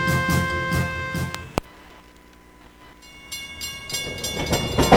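Passing-train sound for a railway, a steady rumble laced with sustained tonal whistle-like lines, broken by one sharp click, then a quieter lull before the noise swells loudly again toward the end.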